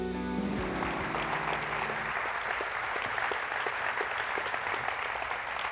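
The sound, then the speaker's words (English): A church audience at the Summit Church claps to welcome a speaker to the stage. The applause is dense and sustained, a steady crackling wash from start to finish, and a brief tonal sound fades out under it at the start. “I want you to put your hands together and from the heart welcome a man who has served and has blessed this church. You welcome him to our stage.”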